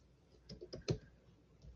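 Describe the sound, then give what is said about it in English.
Typing on a computer keyboard, with a few soft, irregular keystroke clicks that are faint and uneven in rhythm. “Oh, I'm trying to type at the same time.”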